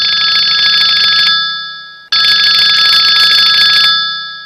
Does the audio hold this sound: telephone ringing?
yes

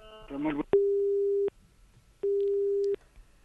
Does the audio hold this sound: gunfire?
no

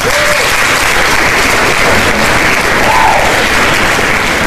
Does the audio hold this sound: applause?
yes

